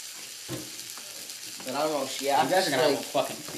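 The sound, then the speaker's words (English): Onions sizzle while frying in a pan, a soft steady hiss that runs under a voice talking through the middle and later part. “I'm doing some fried onions with this, dude.”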